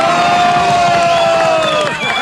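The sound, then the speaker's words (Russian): A crowd cheers loudly for a prize winner, a dense, continuous roar with voices blending through it across the short stretch. “Аплодисменты победителю!”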